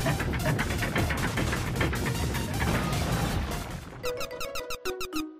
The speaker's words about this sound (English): So now I can just wait for a few seconds and yep, I'll do that. And the gate will open.